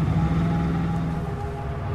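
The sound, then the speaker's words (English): A car engine hums in a steady, low rumble that eases slightly in level toward the end as the vehicle comes to a stop, with no voices. “Slack stops the car and Riley gets out.”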